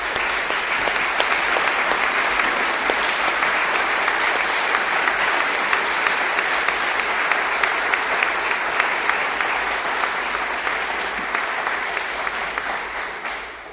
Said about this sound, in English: So the class of 2015, you can clap now.